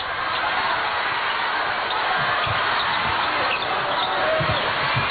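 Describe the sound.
A basketball is dribbled past half court in a game against the Czech team, with the ball pressed by a double team. Several dull, low thumps sound over a steady murmur of crowd noise.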